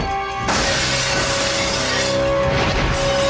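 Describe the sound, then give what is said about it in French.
Window glass smashing in a video game as a character crashes through a pane: a sudden loud shatter after a brief moment of tonal game sound, followed by a dense spray of tinkling, crashing fragments that lasts several seconds. “Anna se donne un bel élan et elle défonce une vitre.”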